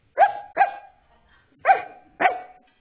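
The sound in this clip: A person imitates a very small dog barking, giving four short, yappy barks in two quick pairs separated by a pause, each bark loud and nasal with a bright edge.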